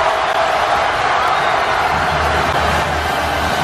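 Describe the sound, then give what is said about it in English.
Temple students roar and cheer as they storm the basketball court after a 66-64 win over Villanova in Philadelphia. The crowd noise is a dense, loud, continuous wash of shouts and cheering. “That is all courtesy of ESPN, and with the noise you hear, the Temple students storming the court.”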